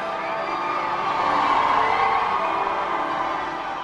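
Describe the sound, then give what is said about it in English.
Crowds in the London streets cheer as Prince William and Catherine Middleton leave Westminster Abbey after their royal wedding. Many voices blend into a continuous roar of cheers and whoops that stays broad and fairly even from start to finish. “That's the sound of the crowds cheering as the newlyweds left Westminster Abbey in London, where the wedding ceremony took place.”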